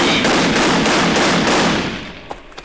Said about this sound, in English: They heard the shots.